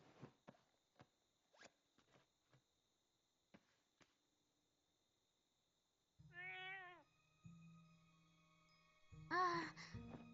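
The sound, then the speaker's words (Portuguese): A cat meows twice, once in the middle and again louder near the end. Before the meows come scattered soft clicks and rustles over a low steady hum. “Oi, gatinho. Ainda tá com raiva de mim?”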